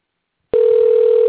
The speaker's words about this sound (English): Dialing the number now. Here we go.